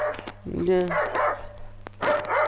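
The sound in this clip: A dog barks and yips a few times in short, sharp bursts while people talk over it.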